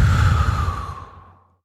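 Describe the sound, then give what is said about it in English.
A deep, slow breath out during a meditation exercise, a loud, breathy sigh that starts full and gradually fades away, with no talk. “So again, it's deep breath in, out,”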